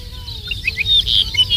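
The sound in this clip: An arricotí lark sings on open moorland: thin, high, bright chirps and whistled notes repeating over a faint, drawn-out lower whistle.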